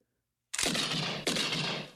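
Two loud gunshots fired by a woman, each a sudden sharp blast followed by a long, rough ringing tail that fades slowly. The shots come less than a second apart, with nothing else around them.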